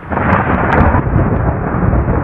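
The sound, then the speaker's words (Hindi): Heavy rain falls in big, fat drops, making a loud, steady hiss and roar that fills the whole clip, with low rumbling underneath. “तभी आसमान से बारिश की मोटी मोटी बूंदे गिरने लगी।”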